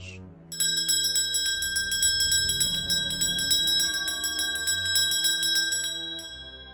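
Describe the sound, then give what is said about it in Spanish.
Bells clang continuously: cowbells shaken during a Krampusnacht procession, giving a loud, dense stream of rapid metallic rings with a bright, sustained ringing tone that runs for several seconds before tapering off. “Ya sea solo o junto a San Nicolás, haciendo sonar cencerros.”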